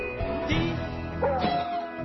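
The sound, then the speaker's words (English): Dog barking in short, sharp yips with a brief whining note, a few scattered bursts over a steady background hum. “Ew, get the stinky dog away from me. Healthy dogs don't stink.”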